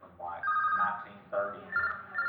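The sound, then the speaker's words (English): A telephone rings in repeated bright, warbling bursts during an interview about moonshining in Cannon County, with people talking around the rings. “During the interview, Ricky's phone rings, which leads to another story.”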